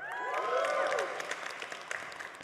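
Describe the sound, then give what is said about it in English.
An audience applauds, with whooping cheers over the clapping at the start. The clapping is loud at first, then thins into scattered claps that fade. “Yeah, you can clap. Come on.”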